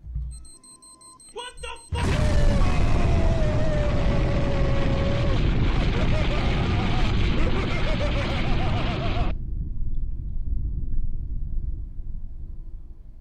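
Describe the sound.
An explosion sound effect drop: after a quieter start, a loud, dense roaring blast surges in and holds for several seconds with a voice in it, then cuts off abruptly into near silence.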